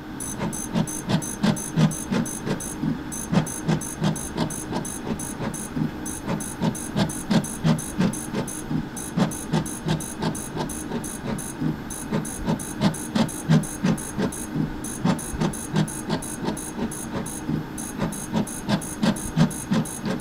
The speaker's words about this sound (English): That was the sound of a fluorescent plate reader.